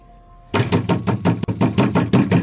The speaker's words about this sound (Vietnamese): đập cửa liên hồi